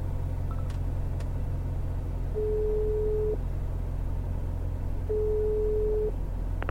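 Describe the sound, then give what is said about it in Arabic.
Telephone ringback tone heard while placing a call: two long, steady mid-pitched tones separated by a pause, sounding over a continuous low rumble. “خليني أحاول أتصل على إسلام مرة ثانية، هو الوحيد اللي عنده خبر. إسلام لو بيرد كان رد من أول اتصال. أنا حتصل على أمي.”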